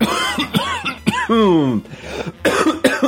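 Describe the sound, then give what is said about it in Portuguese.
Coughing from a man with a heavy flu and an irritated throat: a few harsh, throaty bursts with some strained, voiced rasps between them, loud and alone without speech. “Desculpem por isso. Desafio o Azaghal a editar essa minha tosse do meio da mensagem.”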